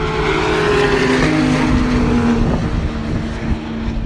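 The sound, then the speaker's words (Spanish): A first-series Porsche 911 sports car drives past at the Jarama circuit, its engine a loud, steady roar with a whining harmonic tone that holds throughout and eases slightly near the end. “y ahí va el Porsche, el 911 de primera serie.”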